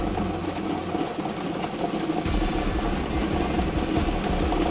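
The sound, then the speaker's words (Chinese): A lottery ball-drawing machine for a 3D number game runs with a steady mechanical whirr and rattle, a dense, even churning at moderate loudness with no speech. “分享 3D 游戏的摇奖机正式启动啊！”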